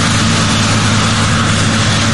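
A combine harvester's engine runs in a grain field while its settings are checked, producing a loud, steady low drone with a constant humming tone and no change in level.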